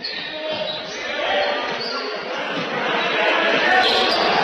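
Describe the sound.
A basketball is dribbled on a court during a game, its many quick, steady low thumps repeating under a constant wash of crowd noise.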